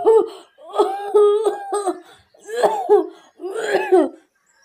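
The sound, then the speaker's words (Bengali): An old woman coughing hard, performed by a voice in a horror story: several rough, hoarse, throaty coughing fits in quick succession, loud and without other talk. “এমন সময় বৃদ্ধাটি কাশল খুব খুব করে, ভাঙা ভাঙা গলায় বলল,”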